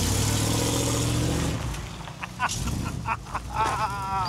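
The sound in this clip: A heavy vehicle carrying a two-tonne cabin pulls away: a loud, steady engine roar lasts about a second and a half, then drops off sharply, leaving quieter rumbling and voices talking.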